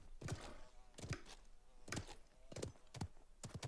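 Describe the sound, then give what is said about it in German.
Hoofbeats of the player's own horse in a video game, a faint, steady series of soft thudding clip-clops at a walking rhythm. “Ich höre was. Oder auch nicht. Das ist mein eigener Gaul.”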